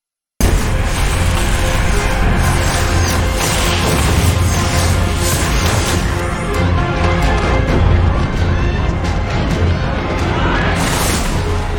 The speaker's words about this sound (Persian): پل داره فرو میریزه.